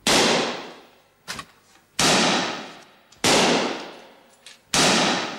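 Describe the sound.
Gunfire in an audio drama, shots in a great hall: four loud, sharp blasts, each trailing off in a long ringing decay, with fainter clattering bangs between them.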